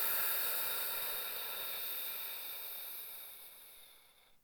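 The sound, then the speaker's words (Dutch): Long breath out during a guided breathing exercise: a soft, airy, even hiss that fades gradually over about four seconds and stops alone, with no talking. “Adem een keer diep in door je neus en helemaal uit door je mond.”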